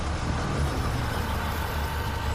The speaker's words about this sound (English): Keep going, Tyler. The bus is coming. Okay. It's right around here. A hulking bus fills the view.